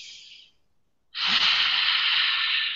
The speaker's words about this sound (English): I do kind of what's called pranic breathing. You know, what you breathe in through the nose, and you kind of let the air fill up, push your stomach out, and then you exhale through the mouth.